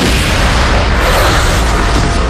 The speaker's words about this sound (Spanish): Un espectáculo de 1.600 drones, luces y fuegos artificiales iluminó el cielo de París por la Fiesta Nacional de Francia.